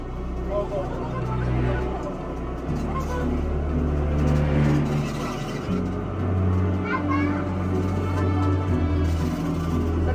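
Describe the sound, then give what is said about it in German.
A bus rides through Rome with a steady low engine drone that shifts pitch a couple of times. Children's voices and background chatter run underneath. “nehme ich den Bus zum Pantheon zurück.”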